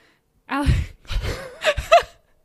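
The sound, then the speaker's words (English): A big human yawn: a loud voiced intake followed by moaning, groaning vocal sounds that break into a few short bursts before stopping abruptly. “chose this moment to conveniently yawn. I had a really big yawn, but it just needed to come out okay.”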